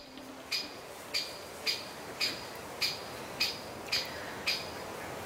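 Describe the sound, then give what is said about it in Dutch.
Sharp, high calls of a great spotted woodpecker in a listener's own recording: eight short, evenly spaced notes in a steady rhythm over a faint hiss of background noise. “Judith Hendricks schrijft: ik nam dit op en ik wist niet dat spechten dit geluid maakten. Hebben jullie enig idee? Vriendelijke groet. Ja, grote bontspecht.”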